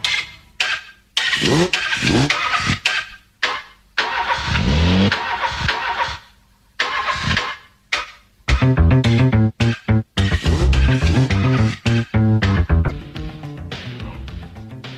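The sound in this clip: A car engine revving, sampled and chopped into stuttering rhythmic bursts with sharp cuts and gaps, within a music track whose pitched tones take over in the second half. The bursts are loud.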